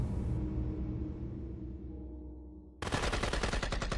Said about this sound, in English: As rifle fire from the ship's tower continued to fall on the path, the Cajuns and former Kenny prisoners took to their heels, trying to get out of range.